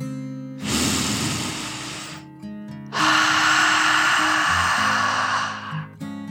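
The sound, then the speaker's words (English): A deep, slow breath drawn in and then let out, heard as two long, soft, airy rushes with a short pause between them, over quiet sustained musical tones in a calming children's relaxation story. “Callie took another dragon breath in and out.”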